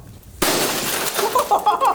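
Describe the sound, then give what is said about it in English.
Glass shattering: after a brief quiet moment a sudden loud crash bursts in, followed by scattered bright tinkles of falling shards that continue to the end. “That was glass.”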